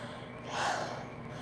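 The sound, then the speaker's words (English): A single faint, breathy gasp from a person catching their breath after exertion, swelling to a soft peak midway and then fading, with no words spoken. “Sorry, let me catch my breath.”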